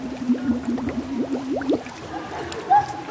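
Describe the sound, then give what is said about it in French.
Air blown out through the nose and mouth underwater during a swimming lesson makes a burbling, bubbly buzz. A low humming tone breaks into many quick pulses, then fades after about two seconds. “Et quand on plonge, on va tout souffler, nez, bouche. Nez, bouche sous l'eau.”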